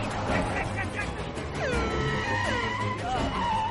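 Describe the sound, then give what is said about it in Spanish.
A police patrol car approaching and stopping during a street chase in a thriller film, with tire squeals sliding downward in pitch over a dense, continuous bed of traffic and engine noise. “Un coche patrulla se acerca.”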